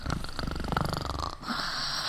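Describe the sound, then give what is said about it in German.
Snoring from a person lying in bed at night, a raspy, wheezing rattle of rapid fluttering pulses that gives way to a steadier, airy breath near the end, with no talk. “du schnarchst.”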